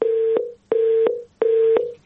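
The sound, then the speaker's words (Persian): Telephone tone after a call is cut off: three evenly spaced, steady mid-pitched beeps with short silent gaps between, heard alone. “خب تلفنشان قطع شد.”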